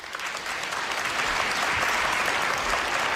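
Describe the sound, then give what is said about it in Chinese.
An audience applauds as a guest makes a stage entrance: dense, continuous clapping at a steady, fairly loud level for about three seconds. “掌声鼓励，掌声啊，掌声鼓励”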